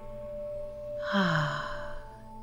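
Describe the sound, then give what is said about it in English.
A single breath let out through the mouth during a guided meditation. The soft, slightly voiced sigh swells and then fades over about a second against a quiet steady background. “And breathe out from your mouth.”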